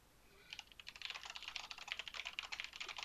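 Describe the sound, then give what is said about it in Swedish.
Someone types an IP address on a computer keyboard. Many quick, light keystrokes clatter in an uneven rhythm. They are faint and begin after a short pause. “Vi måste skriva in din IP-adress som vi får genom din Hamachi som står där bredvid.”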